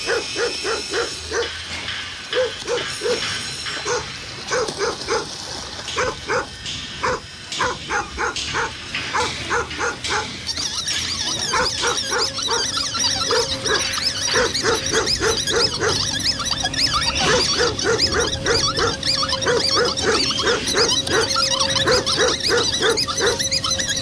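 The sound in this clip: Many dogs bark at a dog shelter, a continuous stream of overlapping barks and yips that grows louder and denser partway through.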